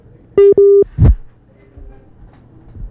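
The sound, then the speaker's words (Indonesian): A telephone tone after a disconnected call gives two loud beeps at one steady pitch, the second longer, followed by a short burst of noise and then near silence. “Halo? Halo Pak Izzudin? Ya, terputus ya dengan Pak Izzudin ya.”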